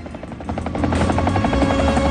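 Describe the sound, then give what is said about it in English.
A helicopter flying in to land for a medical evacuation, its rotor beating in a fast, steady pulse over a low engine rumble that grows louder after the first second, with no voices. “The helicopter flies in and lands with dark brown hills behind it.”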